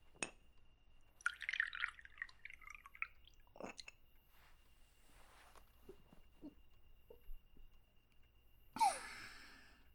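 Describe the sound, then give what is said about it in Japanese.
Sake poured into a small choko cup: a quiet, brief trickle with scattered little glassy clinks and drips, and a louder splashy burst near the end. “お休み前の最後の一杯じゃ。おチョコはさっき使ったのでよいか。”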